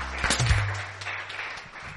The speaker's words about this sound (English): Praise the Lord. Give the Lord a cheer.